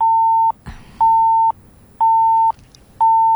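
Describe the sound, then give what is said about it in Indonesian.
Phone beeping for another incoming call: four steady, mid-pitched tones, each about half a second long and evenly spaced, with a short click in the first gap. “mana nih yang bunyi seperti ini? Karena ada telepon lain juga yang masuk ini.”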